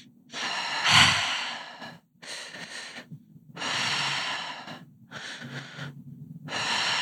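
Slow, deep breathing, with several long, airy breaths alternating in and out at an unhurried pace. The breaths are loud and heard alone, with no talking.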